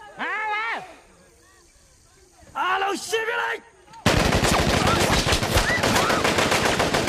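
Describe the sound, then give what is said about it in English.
Machine-gun fire as troops open fire on peasants in the film Rambo: after a few shouted or cried voices, a loud, sustained burst of dense, rapid gunfire abruptly takes over and fills the final few seconds. “At the soldier's command, the troops open fire and the peasants are shot down.”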